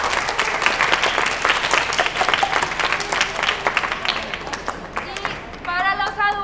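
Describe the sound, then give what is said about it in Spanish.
An audience at a children's rights event in a museum applauds a group of children: sustained, dense clapping from many hands at a fairly even level, and a voice begins speaking just as it tapers off at the end. “Creo que primero un aplauso para esos niños porque hicieron un trabajo.”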